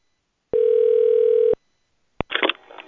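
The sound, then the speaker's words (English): A steady electronic telephone tone sounds alone for about a second after a hotel call is hung up, then stops, followed by a sharp click and a short, noisy burst. “I'm sorry, sir, but I'm hanging up.”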